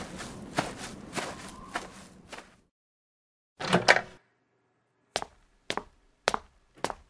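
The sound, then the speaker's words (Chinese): Footsteps of people walking away: a quick run of several footfalls, then a pause and a short scuffing burst. Four more sharp steps follow, evenly spaced and each separated by silence. “他们走了，我们快点离开这里吧。来，跟我走，我带你去个安全的地方。”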